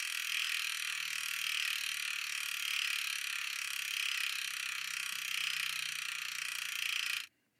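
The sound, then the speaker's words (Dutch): Rapid whirring ratchet of a spinning prize wheel used to draw a cyclist's race number: a dense, steady buzz of fast clicks at an even level that stops abruptly just before the end. “Dus laten we weer aan dat wiel draaien.”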